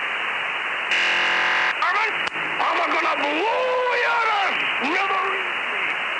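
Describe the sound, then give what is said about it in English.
Hissing radio static from a numbers-station transmission runs throughout, broken by a brief buzzing data burst of under a second, followed by a voice clip from a 1949 cartoon, with a character talking over the steady noise. “So first you'll hear static, then you'll hear the data burst, then you'll hear Yosemite Sam.”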